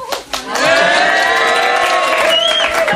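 A crowd greets and cheers at a legends festival in a town hall square, swelling after a brief start into a loud, sustained roar of whoops and shouts.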